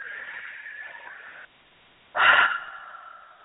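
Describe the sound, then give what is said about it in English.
Breathing during a guided breathing exercise: a long, soft inhale, a brief pause, then a sharp, audible exhale that fades out. “Just breathe.”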